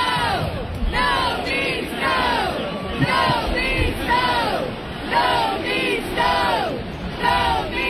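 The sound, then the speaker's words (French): A crowd at a hockey game chants a short phrase over and over in unison, many voices loud and rhythmic, each repeat rising and falling in a steady cadence with no pause. “La foule scandait. No means no.”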